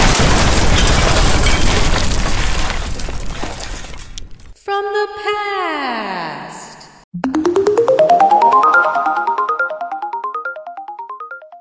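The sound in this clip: An explosion sound effect with flying debris: a loud crackling, rumbling blast for about four seconds, then a cascade of descending chime-like tones and a longer run of rising pulsing tones.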